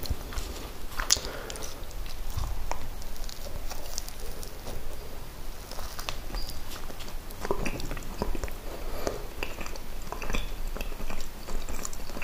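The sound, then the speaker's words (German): Someone bites and chews a bread roll, with a cup of coffee also mentioned. Many soft, crunchy bites and chewing sounds follow one another at an irregular pace, quiet and close, with no talk over them. “Kann ich also in Ruhe mein Brötchen essen, meinen Kaffee trinken.”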